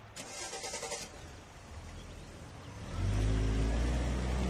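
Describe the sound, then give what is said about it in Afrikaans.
Car engine at a petrol station after the oil is checked, windscreen washed and tyres pumped: a steady, noisy engine hum swells into a louder, deeper rumble for the final second and a half. “Daar sy, oil gecheck, windscreen gewas, wiele gepomp. Hy's reg om te ry.”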